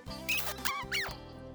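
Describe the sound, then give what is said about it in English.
High-pitched mouse squeaks, three short chirping calls with wavering, fluttering pitch, set over a steady low background hum. “Squeak, says the mouse.”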